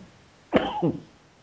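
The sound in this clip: A single hoarse cough that breaks into two quick bursts, fairly loud against a quiet background with no talk.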